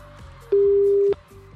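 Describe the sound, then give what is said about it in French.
Ringing tone of an outgoing telephone call: a single steady mid-pitched beep of about half a second, standing out clearly over a faint low background. “on l'appelle. Ça sonne.”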